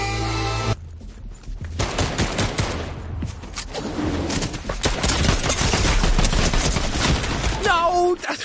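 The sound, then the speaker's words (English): Gunfire in a multiplayer shooter video game. Many rapid shots in dense, loud, continuous bursts follow a brief quieter opening. “They got a super awesome gun right at the very start.”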